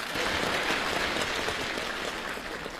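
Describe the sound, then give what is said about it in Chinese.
Applause fills a radio comedy program: dense, steady clapping at an even, loud level that runs through the whole stretch without pause and with no voices over it. “我的掌声就是多，谢谢。”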